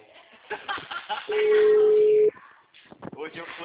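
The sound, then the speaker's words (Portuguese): A telephone dial tone sounds while a call is being placed: one steady, loud, mid-pitched hum lasting about a second, with voices talking before and after it. “Nossa, vou ligar no Craig. Aqui, ó, vou ligar no Craigslist.”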